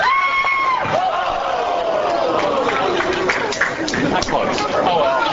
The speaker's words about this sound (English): In what better place to do that than a Milwaukee bowling alley?